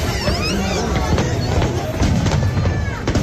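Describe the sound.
Fireworks at a crowded fireworks show crackle and bang in frequent, loud bursts, over a constant hubbub of crowd chatter throughout.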